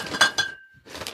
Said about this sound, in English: This is the sound of me opening beers. Badly, there you go. Struggling.